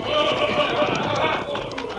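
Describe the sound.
Horses of masked night riders gallop in a dense, continuous drumming of hooves, with voices heard over the pounding.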